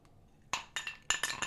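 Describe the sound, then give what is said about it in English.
Glasses clink together several times in quick succession while whiskey is being drunk, making faint, bright, light taps with short ringing tails. “Clink, clink. I'm out of whiskey.”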